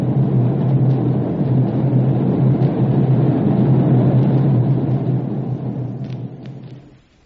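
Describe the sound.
A radio-drama effect of a rampaging island volcano: a loud, steady, thunder-like rumbling roar that holds for several seconds, then fades away at the end.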